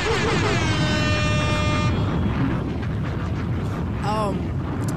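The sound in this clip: A bomb drop sound effect: a blaring horn-like tone sits over a heavy booming rumble, then the tone fades while the rumble continues.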